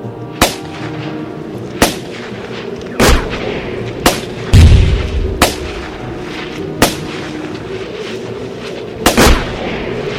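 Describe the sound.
Battle gunfire sound effect from a radio drama about the Victoria Battalion near Pachacamac in the desert: loud, sharp shots crack at irregular intervals, with a deep rumbling boom partway through, over a continuous noisy background.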